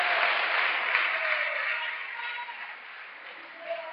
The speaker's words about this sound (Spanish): Démosle ese aplauso al Señor en esta mañana.